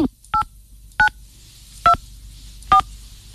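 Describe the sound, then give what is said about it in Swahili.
Telephone keypad dialing: four crisp, identical-length touch-tone beeps at uneven intervals, each short and clear against a quiet, low hum. “Haya, Acha nipigie Edmond. Edmond namba yake ilikuwa 99 99.”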